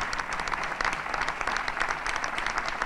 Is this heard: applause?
yes